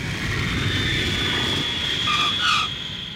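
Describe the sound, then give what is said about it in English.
An airplane on final approach for landing gives a steady, broad engine roar with a thin high whine running through it, holding level throughout with no voices. “We're on final approach for landing at Christmas Village International Airport.”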